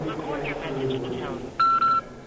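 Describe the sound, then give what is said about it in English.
Two short, bright cell phone keypad dialing tones at an art exhibition in a museum, separated by a brief gap, following a stretch of speech. “You're not supposed to use cell phones in museums, but at the Lichtenstein show, I just had to make a call.”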